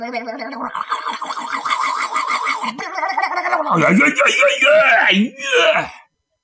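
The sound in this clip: A voice imitates horses neighing amid the shouts of people outside as a dozen fast horses and riders arrive: continuous wavering, quavering cries that grow louder and more strained in the second half, with high whinny-like calls near the end.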